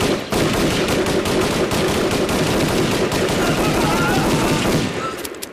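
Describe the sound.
Rifle fire from a soldiers' firing squad on Cephalonia: a loud, dense burst of rapid gunshots runs continuously for several seconds before fading at the end.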